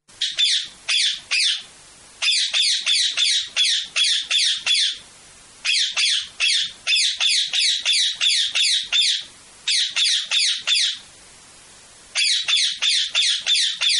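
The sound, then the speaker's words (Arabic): A parrot squawking in loud, harsh, rapid bursts, grouped into runs of repeated calls separated by short pauses, with no other sound. “هذا هو صوت الببغاء. الببغاء أو ما يقال عنه في حكينا الشعبي بغبغان، طائر حسن اللون، حسن الصورة، ريشه ملون، منقاره قصير”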